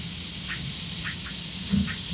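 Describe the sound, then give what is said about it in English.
Catbirds calling, a pair of them, giving a few faint, short, nasal notes spaced apart over a steady background hiss. “But that's the cat bird. There's two of them there.”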